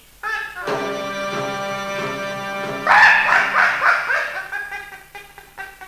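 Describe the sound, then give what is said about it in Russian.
A hunting dog barks and yelps during a hare hunt, giving a run of repeated, fairly loud calls that swell into a busier burst midway, then taper into short, separate yelps near the end. “Этот пес мешает мне охотиться! Замолчи!”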